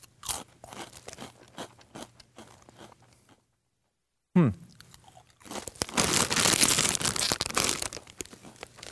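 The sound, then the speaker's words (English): Crunching of wavy onion-flavored potato chips: dense, loud crackling bites and chewing fill the last few seconds, after softer scattered noises and a brief silence. “Okay, here we go. Wavy Funyuns onion flavored potato chips.”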